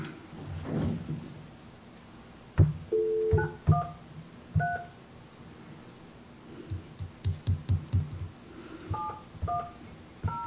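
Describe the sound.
Touch-tone telephone keypad dialing: a few short, clear two-note beeps in two separate bursts, mixed with soft clunks and handling knocks between them.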